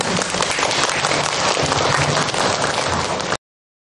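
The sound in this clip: An audience at a talk applauds in a dense, steady burst of many hands clapping. It stays loud and even for about three seconds, then stops abruptly.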